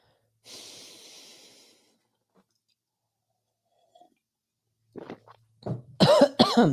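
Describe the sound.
Someone coughs after something went down the wrong way: one breathy cough, then a quiet pause, then a few more sharp coughs and harsh breaths close together at the end.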